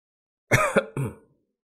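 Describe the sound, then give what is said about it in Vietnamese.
Harsh, wet coughing from a man coughing up blood, a couple of short throaty bursts in quick succession, fairly faint and alone. “Diệp Phàm ho ra một búng máu, nhẹ nhàng dùng một cái chiếc khăn trắng lau miệng.”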